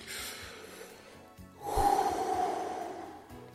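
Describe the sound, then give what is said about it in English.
A single deep breath drawn before a prayer, a soft, breathy rush of air lasting under two seconds, heard on its own with no talking. “Let's have a breath and a prayer.”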